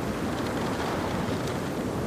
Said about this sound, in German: Die tosenden Wellen reißen die Rümpfe in die Tiefe.